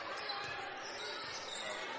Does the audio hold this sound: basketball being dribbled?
yes